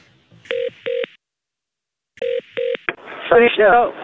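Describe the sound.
A telephone keypad sends clear, steady dialing tones while a call is placed to hotel reception. There are two tones, a pause, and two more tones, then a click and a voice speaking.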